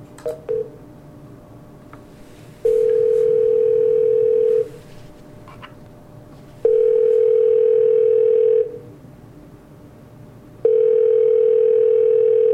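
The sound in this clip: A phone call being placed: a few quick dialing beeps, then three long, steady ringing tones of one pitch, each about two seconds and separated by pauses of similar length.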